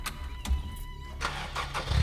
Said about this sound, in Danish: Så sætter jeg bilen i første gear og kører hen over posen.